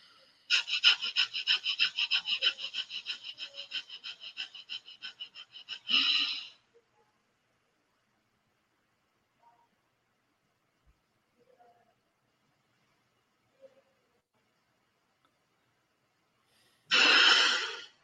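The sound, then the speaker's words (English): A rapid breathing exercise: many quick, regular breaths in fast succession for about six seconds, then one longer deep inhale. Near silence follows while the breath is held, ending in a forceful rush of air. “you're constantly breathing as fast as you can and taking it so that you can hold all that breath and let it out. So it goes like, so this is how you do it.”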